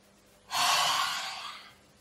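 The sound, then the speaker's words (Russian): A single deep inhale taken during a breathing exercise: a steady, airy rush of breath that swells quickly, holds for about a second, then tapers off, heard alone with no talking. “Итак, делаем глубокий вдох.”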